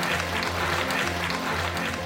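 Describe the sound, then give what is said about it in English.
Applause for two departing guests, a continuous, fairly faint patter of clapping hands that holds at an even level without breaks, over a low steady hum. “please, huge round of applause for Dennis and Angus.”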